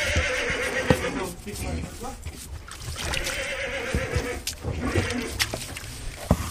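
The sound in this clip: Horses neighing while their dirty, manure-caked hooves are cleaned, with several whinnies and snorts rising over steady background noise.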